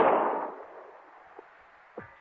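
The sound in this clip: Gunshot in a radio drama, a single loud blast whose roar fades over about half a second, followed by two faint, brief knocks, with no voices.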